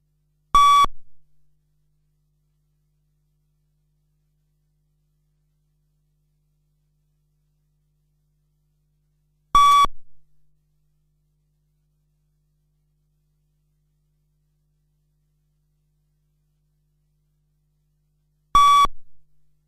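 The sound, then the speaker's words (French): Pacing beeps for a running speed test: three short, mid-pitched electronic tones, evenly spaced about nine seconds apart, each sounding alone against silence. “Ajustez bien votre vitesse sur les bips sonores.”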